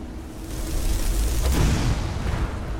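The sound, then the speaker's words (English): Fireball spell exploding in a fantasy video game fight against vampires: a rumbling whoosh that swells into a loud burst around the middle, then trails off into a low roar, with no voices. “Okay, if this guy stops again, I want to shoot him with a fireball.”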